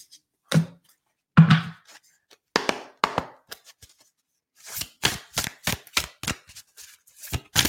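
Shuffling a deck of affirmation cards produces scattered brisk riffles and papery slaps, sparse at first, then a dense run of rapid card strikes toward the end, with no talking.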